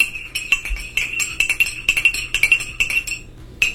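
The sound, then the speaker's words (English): A metal spoon clinks against a china teacup, giving many bright, quick chimes in an uneven stirring rhythm. They are fairly loud and sound alone. “Is it a spoon and a teacup? That is. That's exactly what that is.”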